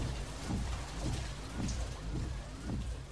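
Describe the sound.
Rain falling at night around a car: a steady, soft hiss of many drops with a low rumbling texture, faint and unbroken throughout.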